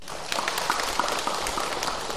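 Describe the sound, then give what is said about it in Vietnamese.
An audience claps at a Vietnamese Buddhist monk's dharma talk. Dense, steady applause fills the whole moment with a rapid patter of many hands and no voices. “Sư tin các vị không phải vỗ tay vì là sợ là sư sợ mất lòng, mà các vị cũng phải thấy là sư nói đúng.”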